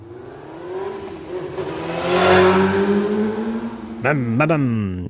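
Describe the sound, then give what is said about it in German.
A motorcycle engine holds a rising, droning hum that swells in the middle. Near the end it breaks into a few sharp revs with quick jumps in pitch. “Das war ein Motorrad. Unschwer zu erkennen”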